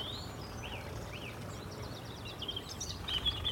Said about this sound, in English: Is that a oh. woodpecker? Oh. It's a creaking tree. I think it's just a creaking. This thing here, yeah, it's just a it's just a creaking willow. Great sound.